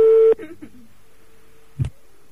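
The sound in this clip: A telephone rings on a call with one short, steady electronic tone lasting about a third of a second. After it come a few faint clicks and a brief low thump, then near silence.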